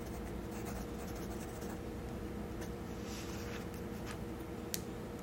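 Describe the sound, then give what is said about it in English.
Pencil writing on paper during a soft-spoken recipe-choosing session: a steady, continuous dry scratching that runs unbroken for the whole stretch at an even, moderate level, with no talking. “I'm gonna write that down.”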